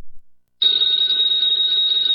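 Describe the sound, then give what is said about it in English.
A telephone bell rings: after a moment of near silence it starts abruptly, then keeps ringing as a loud, bright, continuous trill to the end. “that phone bell means adventure”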